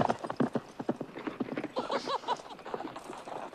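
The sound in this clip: A ridden horse's hooves clip-clop during jumping, with many quick, rhythmic hoofbeats that stay loud and busy throughout.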